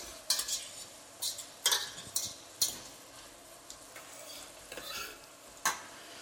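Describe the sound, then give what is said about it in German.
Shallots sweating in a pan give a quiet, soft sizzle. Several sharp scraping clicks of stirring come at irregular intervals over a low frying hiss, with no talk. “bei Suppen- und Soßenansätzen verwende ich gern die Schalotten. So, die schwitzen wir auch mit an.”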